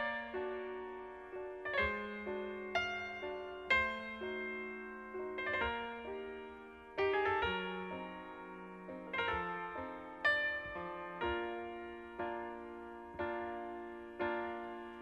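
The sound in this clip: Piano intro of a recorded pop song, quiet, with chords and melody notes struck at a steady, moderate pace, each note ringing and decaying; no voice is heard.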